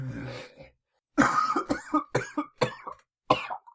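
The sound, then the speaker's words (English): Someone blowing their nose: a series of several wet, honking nasal bursts of uneven length. They come in a loose rhythm after a longer opening blast and a short pause, fairly loud and without talk. “Just blow my nose.”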